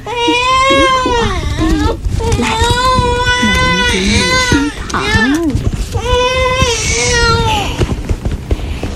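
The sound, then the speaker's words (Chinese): A small child, tied by a rope at the waist, cries loudly and without pause in long, wavering wails, broken by a few short sobbing catches between them. “宝贝别哭啊，让奶奶抱抱。”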